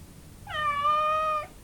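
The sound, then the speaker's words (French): A cat gives a single clear meow, a sustained tonal cry lasting about a second and heard alone against quiet background. “exécuter plusieurs sauts périlleux, pousser un dernier miaulement”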